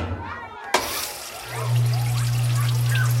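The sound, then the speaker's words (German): A washing machine loaded with laundry and detergent powder starts up with a click, then water begins rushing in over a steady low motor hum that holds to the end. “So, eine Portion Waschpulver ins Fach und los, Wilma Waschmaschine.”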